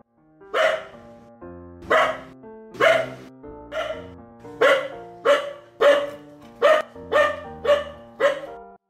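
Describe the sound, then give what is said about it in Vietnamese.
A yellow-furred mountain dog in a forest springs up and barks in a long run of loud, sharp barks, evenly paced at first and coming faster toward the end. “Đột nhiên, con chó núi lông vàng bật dậy, sủa lên một tràng với người trên giường.”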